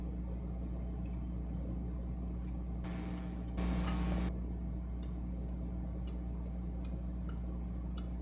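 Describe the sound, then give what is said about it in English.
Screws are reinserted through a drive bracket onto a Hitachi Travel Star laptop hard drive, giving faint scattered ticks and clicks, with a short rustling scrape partway through. “With the ports facing inside, set the bracket onto the drive, reinsert the screws through the bracket.”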